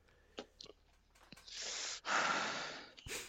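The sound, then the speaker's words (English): Heavy breathing into a microphone: a few long, rough, noisy breaths follow some faint clicks, each breath swelling loudly and then cutting off. “Listen to that sweet, hard breaths you're doing right now in the mic.”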